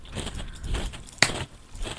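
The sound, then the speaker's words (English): A single crisp crunch as someone bites into a lychee-flavoured treat. It is one sharp snap, set among faint, soft mouth and chewing noises. “Oh, is this the lychee one? Yeah. It's okay. It tastes like soap. I didn't mean to crunch it like that.”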